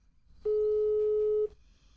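A single steady, mid-pitched electronic telephone tone sounds as a call is placed. It holds for about one second against a faint background.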